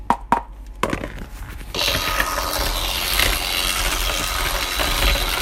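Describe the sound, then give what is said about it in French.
Electric mixer beaters creaming butter: a few loud clicks and knocks, then the motor starts with a steady, loud, buzzing whir that runs without a break. “C'est parti mon kiki pour les batteurs. Le beurre a pris un aspect crémeux.”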